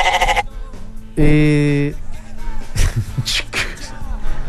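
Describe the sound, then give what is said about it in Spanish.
A goat lets out one loud, wavering bleat lasting under a second, with people talking before and after it. “Chivo, el chivo.”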